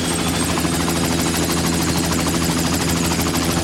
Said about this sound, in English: Helicopters are very versatile because, like hummingbirds, they can hover, fly forward, backwards, or sideways. They also require no runway. Want to take one for a spin?